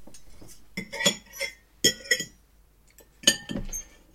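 Cutlery clinking against plates at a family Sunday roast dinner: several light, bright clinks and taps in irregular bursts with short pauses between, and no talk.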